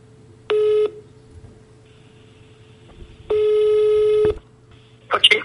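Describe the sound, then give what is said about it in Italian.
A telephone call rings out: two long, steady ring tones separated by a quiet pause of a few seconds, then a short noisy burst at the very end. “provo a chiamare Graziella Nicoli, vediamo se risponde”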